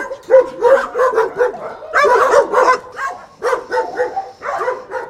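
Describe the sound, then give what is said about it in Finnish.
Dogs bark at a shelter housing over a hundred dogs: many overlapping barks, yips and whimpers from several animals in an uneven, busy rhythm, loud throughout. “Tarhalla on päälle 100 koiraa ja siellä työskentelee 9 ihmistä.”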